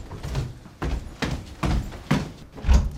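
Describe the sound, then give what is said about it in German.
An upstairs bedroom door being closed, heard as a handful of dull, muffled thuds and knocks spaced unevenly across a few seconds. “Der Gutachter schließt die Schlafzimmertür oben im ersten Stock.”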